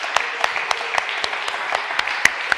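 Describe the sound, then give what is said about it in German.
A church audience claps in unison during worship: about ten sharp, evenly spaced claps in a steady rhythm, loud and clear. “Let's put our hands together for Jesus. Lass uns klatschen für Jesus.”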